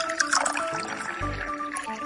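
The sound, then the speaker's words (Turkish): Hot water pours over coarse köftelik bulgur in a deep bowl, a continuous liquid splash and fill that runs for about two seconds, briefly swelling into a deeper gush partway through. “Önce derin bir kap alalım. Köftelik bulguru kaba koyalım. Bulgurun üzerine sıcak su koyalım.”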